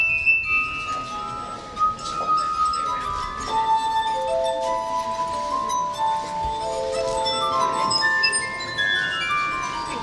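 Glassy singing tones of a crystal glass harp played by a street musician in Venice, with many sustained pure pitches overlapping and changing continuously, and bright clinks scattered through.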